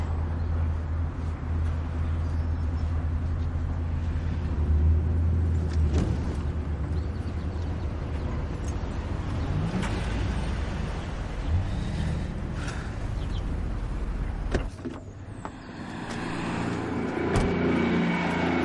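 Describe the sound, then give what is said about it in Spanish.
A car is driven through a gate into a property, its engine a steady low rumble throughout with a brief dip near the end. “mete el coche en la parcela”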